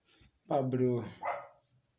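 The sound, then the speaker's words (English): A dog barking in a recording studio: two short, harmonic barks, the first longer and louder and the second briefer, with near silence around them. “Sorry about the dog, man.”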